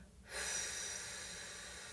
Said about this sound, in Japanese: ゆっくりまた吸って、背筋と笑顔はキープのまま、吐きます。ゆっくり吐く。